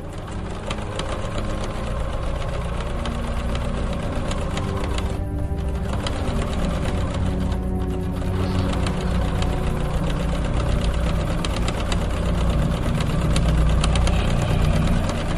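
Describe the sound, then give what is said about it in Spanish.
An old sewing machine runs and stitches with a rapid, steady mechanical clatter that lasts throughout. It is loud and continuous, broken only by two brief dips. “la máquina empezó a funcionar de nuevo y a coser.”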